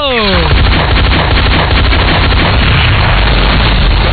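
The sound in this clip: Explosion sound effect in a comedy segment: a loud, continuous roaring rumble that fills the whole clip without a break.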